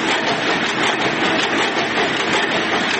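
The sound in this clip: Cotton textile factory machines in Kandahar, running again after years idle, fill the air with a loud, steady mechanical roar and clatter that holds unbroken throughout, with no voices.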